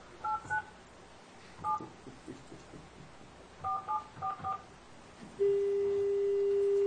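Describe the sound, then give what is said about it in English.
Telephone keypad dialing tones: a few short beeps spaced apart, then a quick cluster of four, followed by a steady unbroken tone that holds to the end. No talking is heard. “Did you dial the one? Yes. I even dialed the nine first.”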